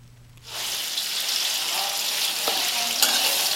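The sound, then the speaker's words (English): Diced pork belly sizzles in a pan with mushrooms and shrimp. A loud, steady frying hiss starts after a brief quiet moment and keeps going to the end. “Diced pork belly goes in the pan with mushrooms and shrimp.”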